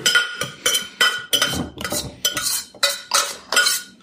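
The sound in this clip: Cutlery clinks against a plate while someone eats pasta with pesto. Many sharp, bright clinks and scrapes come in a steady, fairly regular series at even loudness, with no talking.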